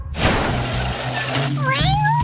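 Cats meowing. One clear meow rises in pitch near the end, over a steady low hum and dense background noise.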